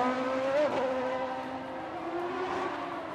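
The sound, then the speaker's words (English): Race car engine pushed hard through hairpin turns and narrow alleys: a continuous high, buzzing whine with slight pitch wavers. The level stays steady throughout, with no clear pass-by. “Turbo Thorn pushes his car to the limit, maneuvering through hairpin turns and narrow alleys”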